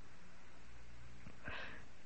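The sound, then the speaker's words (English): A single short, breathy nose blow into an old apron, a faint hiss of air lasting under half a second against a quiet, steady background. “Here's an old apron. Blow your nose.”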